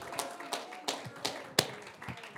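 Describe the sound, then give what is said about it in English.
An audience claps together at an evening church service, producing a steady, evenly spaced series of sharp, moderately loud hand claps with no voices over them. “Let's give the Lord another hand clap.”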